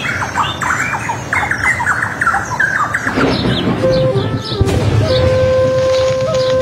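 Birds squawk and squeal as they fly, a dense run of many harsh, shrill calls repeating over a steady rushing background.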